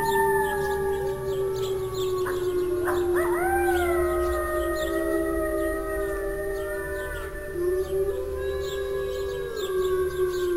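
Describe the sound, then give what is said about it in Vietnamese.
A pack of wolves howls together in answer to a sound. Long, wavering, overlapping tones rise and bend, with one sweeping upward partway through, and the chorus stays loud and unbroken for over ten seconds with no talk. “Mấy con sói hướng về phía âm thanh phát ra, hồi đáp lại một tràng. Tiếng sói tru âm vang mà mạnh mẽ”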